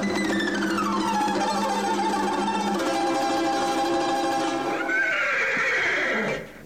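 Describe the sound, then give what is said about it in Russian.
A chestnut horse neighs in a long, loud whinny, its shrill pitch sliding downward, then rising into a second squeal that falls away before the end. “Эй, рыжий конь из ноздрей огонь! Встань передо мной, как лист перед травой.”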